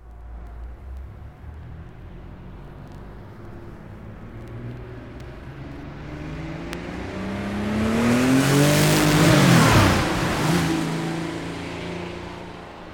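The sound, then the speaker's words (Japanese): A supercharged Porsche engine revs with a steady, gritty drone that builds in pitch and loudness, swelling to a harsh peak late on before easing off slightly. “スーパーチャージャー装備のポルシェ独特の音だ。”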